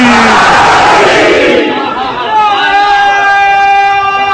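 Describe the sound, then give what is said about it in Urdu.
A crowd at a religious gathering roars back in unison in response to the Nara-e-Haidari slogan. A massed, loud shout swells and then fades into sustained, overlapping chanted voices. “نعرہ حیدری،”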